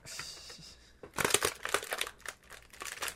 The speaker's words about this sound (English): how your audio file looks after just hearing you tear open the plastic